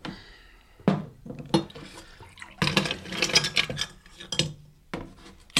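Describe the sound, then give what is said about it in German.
Whisky poured over ice cubes into a glass: a few sharp bursts of clinking and splashing with pauses between, moderately loud, without talk. “Ja, du kannst mir einen Whisky einschenken. On the rocks? Mit Eis, ja, aber nicht zu viel.”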